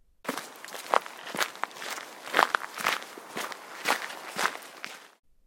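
Footsteps of someone setting off on foot with a backpack, many quiet, evenly paced steps at a steady walking rhythm, heard alone.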